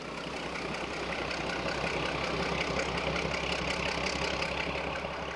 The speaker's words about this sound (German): im Fuhrpark der Kranichsteiner, der Wendezug mit Triebwagen und Diesellokomotive